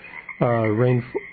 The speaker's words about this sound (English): the frogs, well, basically they're boy frogs looking for a date. And they're just croaking their hearts out.